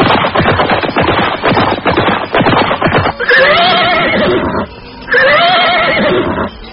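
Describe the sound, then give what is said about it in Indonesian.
Horse hooves clip-clop in a fast, loud clatter at a forest edge as night falls. Two long, loud whinnies follow, with a brief pause between them. “Malam mulai turun ketika kuda-kuda yang mereka tunggangi mulai menapak di tepian hutan tadi.”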